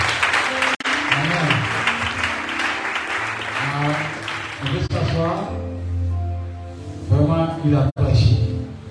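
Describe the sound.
A church audience applauds and cheers: steady, dense clapping continues throughout, with loud voices calling out over it.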